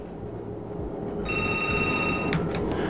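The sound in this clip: A telephone rings for the next incoming caller, a steady electronic ring starting partway in and lasting about a second, followed by a brief click, over a faint background hiss.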